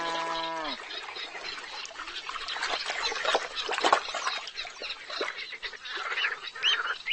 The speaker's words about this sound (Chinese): 一只白眼前鸭正领着小鸭们小心游过水草盘绕的水塘。